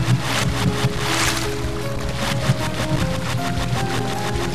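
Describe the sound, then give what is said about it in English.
Swimming through water in a video game: continuous loud splashing with rapid, repeated stroke-like pulses and faint steady tones underneath. “Right, I'm still swimming here.”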